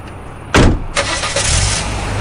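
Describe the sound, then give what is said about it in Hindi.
A Hyundai i20 car door opens with a loud burst of sound, then a short second knock follows. A steady car engine rumble takes over as the car drives away. “Nilima madam ने आगे बढ़ के अपनी I-20 का दरवाजा खोला और उसमें बैठ के चिड़िया की तरह फुर हो गई।”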